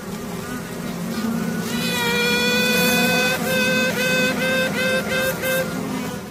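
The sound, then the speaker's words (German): A honeybee queen toots inside a Tyrolean beekeeper's hive to signal other queens. High, harmonic tones rise over a constant buzzing colony hum: a longer toot, then a quick run of short, pulsing toots. “So tutet eine Königin, um anderen Königinnen zu zeigen, dass sie da ist.”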